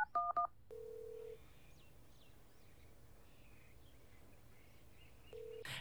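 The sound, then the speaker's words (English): Three quick touch-tone beeps sound as 911 is dialed on a telephone keypad on a desert trail. A steady tone follows, and it returns briefly near the end. Faint bird chirps sit in the quiet background. “You take the headset off and hang it around your neck as you dial 911.”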